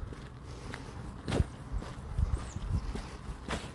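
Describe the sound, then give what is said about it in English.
Footsteps of someone walking a route, a few uneven, fairly soft steps landing one after another with a light scuffing quality, heard alone. “Man, I'm taking forever walking this route.”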